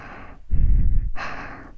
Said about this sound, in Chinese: 你的呼吸好急促啊，